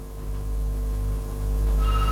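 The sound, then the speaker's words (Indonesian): A telephone rings on a radio call-in line, a steady electronic ring tone sounding alone and continuously for about two seconds. “Ada lagi nih dari line telepon, kita coba angkat dulu ya.”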